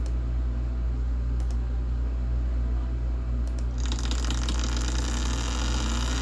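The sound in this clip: A car engine drones steadily as the car is driven along a countryside road in a video game. The low, constant hum gains a brighter hiss partway through.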